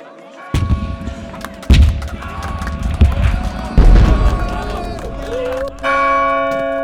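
Church bell striking twelve, heard as a few heavy, booming strikes with sustained ringing tones, mixed with deep thudding impacts; a brighter, steady tone joins near the end.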